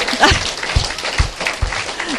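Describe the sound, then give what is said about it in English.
A church audience applauding as a clap offering: a steady wash of many hands clapping, with a few heavier low thumps and voices mixed into the noise. “Let's give the Lord a clap offering.”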